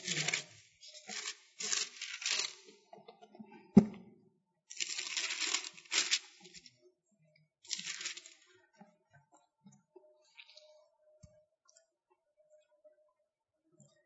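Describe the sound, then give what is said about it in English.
Paper pages turning in a few dense rustling flurries over the first eight seconds, with a sharp knock near four seconds, then near silence with only faint scattered ticks. “Sound of your pages turning.”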